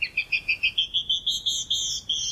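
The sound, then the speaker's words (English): A canyon wren sings a rapid series of many clear, high whistled notes that give way to a few longer slurred notes, loud and alone. “But many female birds do sing, even in colder climates, such as this canyon wren.”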